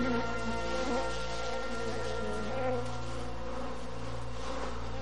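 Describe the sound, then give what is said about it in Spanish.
Bees buzzing around hives high on a steep mountain wall, a continuous, fairly faint droning hum that stays even throughout with slight swells and no other clear sounds. “Hay muchas abejas aquí arriba.”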